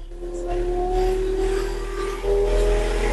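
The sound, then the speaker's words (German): A small motorized vehicle, fitted with an added steering wheel, pulls away after its right gas pedal is tapped. Its engine gives a continuous mid-pitched drone that swells slightly near the end. “Wenn du jetzt das rechte Gaspedal leicht antippst, dann sollte er losfahren.”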